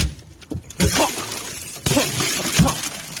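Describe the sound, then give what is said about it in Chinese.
Car window glass smashed with a wrench on a burning, locked car: a few hard, sharp impacts, each bursting into loud crunching, shattering glass, with no voices. “取出扳手，再次冲向着火车，用扳手奋力击碎车窗玻璃。”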